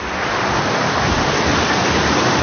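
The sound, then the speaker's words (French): Water rushes strongly down a log flume ride at an amusement park, a loud, dense and steady hiss and roar that continues without a break. “Ah, il y a de l'eau qui coule très fort et c'est là-dedans que je vais aller.”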